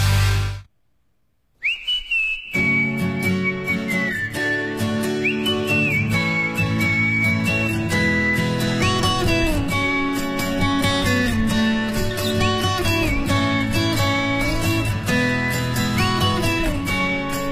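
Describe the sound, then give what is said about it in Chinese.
Whistled melody opening a song: after a brief silence, a bright, clear whistle carries a light, bouncy tune over steady instrumental backing, loud throughout. “口哨的前奏总是让人感觉非常的轻快，而且正出发的感觉。”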